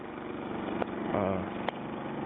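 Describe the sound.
A brand-new portable generator runs at a trailer, giving a steady, even droning hum broken by two brief clicks.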